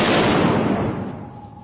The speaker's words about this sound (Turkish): Canlı yayında saldırı tüfeği eğitimi verildi. Sunucu Birleşik Arap Emirlikleri bayrağına ateş açtı.